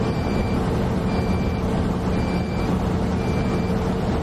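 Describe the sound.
Speed warning chime of a car after passing 120 km/h: four evenly spaced, high-pitched beeps, each about half a second, over loud, steady engine and road noise.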